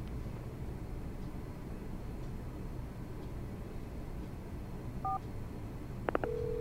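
A few faint touch-tone dialing beeps come near the end, keying a UAE landline number on a telephone over a steady low hum, and the last one runs into a longer held tone.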